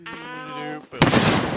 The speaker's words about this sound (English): I'm going to throw another grenade down there.